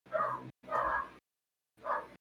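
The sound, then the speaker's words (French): A neighbours' dog barks in the background: three faint, short barks, the first two close together and the third after a longer pause. “il y a ton chien au fond. Non, ça c'est le chien des voisins.”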